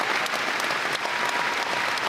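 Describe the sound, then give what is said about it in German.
Standing ovation from a concert audience after a staged concert performance of the musical Chess at the Schleswig-Holstein Musik Festival in Lübeck: dense, steady applause that stays loud and even throughout, with no voices rising above it. “und vor ihm ein Saal, der steht und jubelt.”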